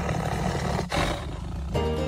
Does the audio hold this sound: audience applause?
no